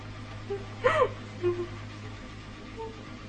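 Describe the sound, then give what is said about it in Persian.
A woman sobs and cries bitterly, giving a few faint gasping, whimpering breaths separated by pauses over a steady low hum. “صورتش رو با رو سریش میپوشونه و زار زار گریه میکنه. به هق هق افتاده.”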